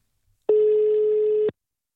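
A landline telephone gives a single steady electronic tone as a call is placed: one even, mid-pitched beep lasting about a second, heard alone with no talk.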